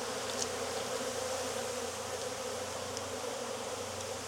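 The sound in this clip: Honeybees buzz inside an open hive during an inspection, a steady, fairly faint drone that holds evenly throughout without voices.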